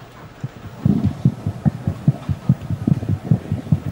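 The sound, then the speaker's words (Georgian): Fetal heartbeat heard on an ultrasound scan: fast, steady whooshing pulses in a low register, evenly spaced and repeating throughout with no voices. “შესაძლოა ექიმის რიგში იდგენ. ექოსკოპიის კაბინეტიდან კი მოცლად მყოფი ბავშვის გულის ფეთქვის ხმა გაიგო.”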